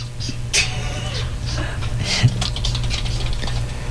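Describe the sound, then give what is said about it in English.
Colored pencils scratch across paper as people draw, in irregular light strokes and patters with a few slightly firmer marks, fairly soft throughout. “Stand by, we're drawing. It's Arts and Crafts time on the Mike Calda Show.”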